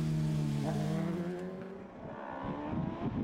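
Race cars roar past during a motor race, a loud, dense engine drone with strong low harmonics that holds steady throughout, with no voices.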